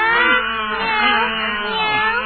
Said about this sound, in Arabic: ماذا أسمع؟ تريد بعض الطعام. قطة ذات الشعر الأبيض